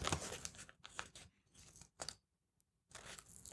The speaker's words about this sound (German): Na, ich versuche jetzt diesen komischen Aufkleber abzukriegen